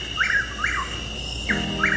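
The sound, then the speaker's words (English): A Chuck-will's-widow nightjar gives four short, clear whistled call notes in two pairs, each note sweeping quickly in pitch, with a pause between the pairs. “That's the call of Chuck Will's widow.”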